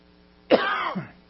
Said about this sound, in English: excuse me, I'm coughing